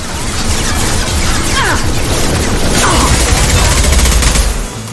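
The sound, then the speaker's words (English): Assault rifle gunfire in a video game, a dense, continuous rattle of rapid automatic shots that runs almost the whole clip and cuts off just before the end. “Let's shoot our assault rifle.”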